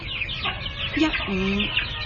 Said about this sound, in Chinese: 鸡仔，咪走过嚟捞乱晒